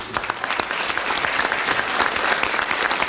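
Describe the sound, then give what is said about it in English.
Studio audience applause welcomes a comedy writer-turned-performer guest: dense, even clapping with many overlapping hands runs at a fairly loud, steady level from start to finish. “A warm welcome for John Junkin.”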